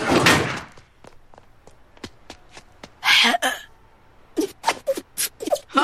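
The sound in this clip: A door slamming with one loud, harsh bang at the start, followed by a few lighter knocks and then voices talking.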